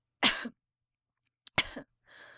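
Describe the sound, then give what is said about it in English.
A weak cough from someone lying ill with his head resting on a pillow: two short, rough bursts well apart, followed by a fainter breathy rasp at the end. “A weak cough.”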